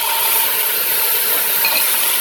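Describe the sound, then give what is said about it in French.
Onions sizzle as they brown in a pan, with tomatoes and spices added, giving a loud, steady frying hiss with no break from start to end. “Lina fait roussir les oignons, ajoute les tomates et les autres épices.”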